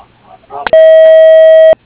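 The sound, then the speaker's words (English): An answering machine gives its beep before a message: one steady, loud electronic tone lasting about a second, cut off cleanly, after a brief snatch of voice. “We can't get to your call at this time, so please leave a message after the beep.”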